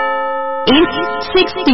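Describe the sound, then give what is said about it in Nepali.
A radio station's time signal chime, a single steady electronic tone rich in overtones lasting under a second, followed immediately by a voice talking. “Radio sign 89.8 megahertz साहिनो समय सूचक अहिले साँझको 6 बज्यो।”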